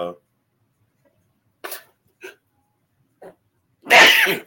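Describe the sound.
A person sneezes during a casual sports chat: one loud, sharp, breathy burst near the end, after a few brief, quiet vocal sounds.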